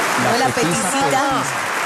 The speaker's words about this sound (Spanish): Cantidad de gente como aplaude, ¿eh?